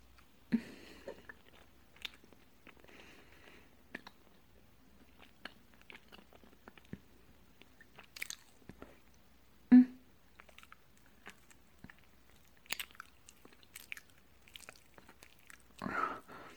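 Soft chewing and biting of food during a close, intimate feeding roleplay. Quiet, intermittent wet mouth clicks are scattered throughout, with a couple of louder crunchy bursts near the middle and at the end.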